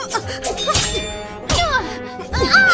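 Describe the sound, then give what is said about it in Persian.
Swords clash during a sword fight. A few sharp, ringing metallic clangs strike at uneven intervals, each ending in a bright shimmering tail, among softer impacts and scuffs. “که این طور شمشیر زنی تالی”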